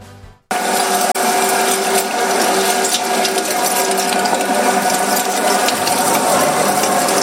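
A butcher's meat grinder mincing sacrificial meat for Eid al-Adha starts up with a sudden onset, then runs as a loud, steady, dense mechanical grinding whir with a faint tonal hum, without talk.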